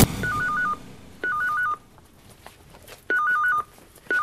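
Telephone keypad dialing tones for an incoming phone call: three quick runs of several short, clear beeps, each run about half a second, with another run starting at the very end.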